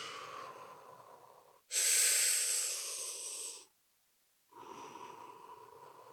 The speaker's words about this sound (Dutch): dus je ademt in. In. En dan de rustig los.